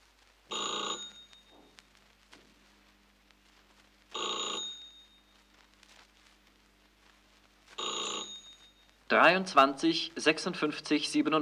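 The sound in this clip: A telephone bell rings out three times in loud, evenly spaced bursts for an incoming long-distance call, with quiet gaps between rings. A voice starts speaking right after the third ring.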